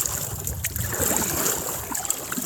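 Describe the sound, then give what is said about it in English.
Paddling of a small boat on a camping trip, with water swishing and churning in a steady, fairly loud wash that runs the whole time, without clearly separate strokes. “All right, I have to paddle for a moment.”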